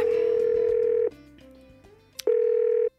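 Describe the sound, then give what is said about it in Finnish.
A telephone call being placed to the prime minister: a loud steady dial tone holds for about a second, gives way to quieter lower tones and a brief sharp click, then the steady tone returns before cutting off. “Otetaan puhelu Sannalle.”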